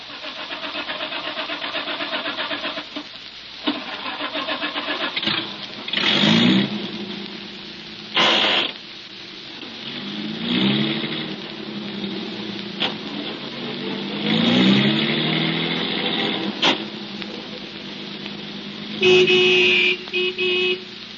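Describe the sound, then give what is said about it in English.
A car engine starts and the car drives away onto a highway, the motor catching and then revving up and down several times in loud, uneven surges with no talk. “We drove away from Willow Springs, got out onto the highway, and started toward town.”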